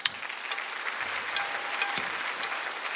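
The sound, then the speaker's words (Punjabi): An audience applauds a sung performance by three brothers, with a sharp first clap and then a steady, lively patter of many hands lasting a few seconds. “ਪੂਰੀ ਲੁਕਾਈ ਦੀ ਸੁੱਖ ਮੰਗਦੇ ਇਹਨਾਂ ਤਿੰਨਾਂ ਵੀਰਾਂ ਦੀ ਭਾਵ ਪੂਰਤ ਗਾਇਕੀ ਦੇ ਲਈ ਇੱਕ ਵਾਰ ਆਪਾਂ ਰਲ ਕੇ ਜ਼ੋਰਦਾਰ ਤਾੜੀ ਵਜਾਈਏ।”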